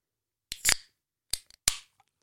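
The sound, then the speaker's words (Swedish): A drink can being cracked open gives a few sharp clicks, the loudest followed by a brief fizzing hiss, then a couple of smaller snaps and another short hiss, all alone with no talk. “först kan jag faktiskt knäppa dagens dricka.”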